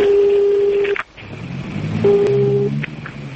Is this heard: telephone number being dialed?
yes